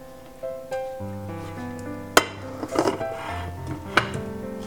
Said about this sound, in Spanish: Ahora intentamos separar bien las paredes del molde. Ponemos el plato encima, sujetamos bien.